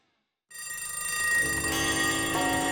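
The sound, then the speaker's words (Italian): An alarm clock bell rings continuously, starting abruptly after half a second of silence and then holding a loud, steady metallic jangle to the end. “che una sveglia suona”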